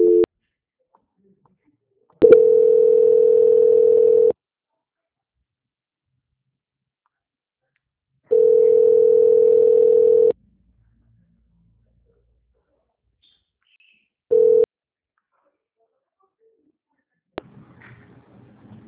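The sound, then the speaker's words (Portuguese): Telephone transfer tone as a sales call is put on hold for transfer to quality control: a few steady mid-pitched beeps, two lasting about two seconds each, separated by long silent gaps, with a faint scratchy noise at the end. “peço que aguarde em linha, que vou transferir o contato para o controle de qualidade, que dará continuidade à sua contratação. Tá bom. Transferência.”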